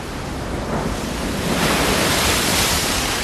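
Ocean waves break on a shore with a steady, rushing wash of surf that swells louder about halfway through and stays full to the end, with no voices.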